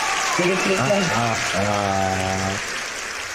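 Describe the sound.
Applause sound effect, a steady wash of clapping that runs through the whole stretch at an even level while a voice talks over it.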